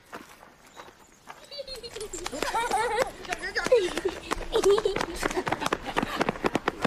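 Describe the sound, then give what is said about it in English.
Quick, light footsteps of children running down a lane, many rapid scuffing steps that patter unevenly, with children's voices calling over them throughout. “Picking up a basket, Eddie follows the others as they run down the lane.”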